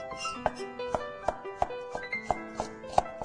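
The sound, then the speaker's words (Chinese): Knife chopping garlic cloves into a fine mince, a steady series of crisp, evenly spaced strikes at moderate volume. “我们这个蒜头呢，把它切成这个末哈”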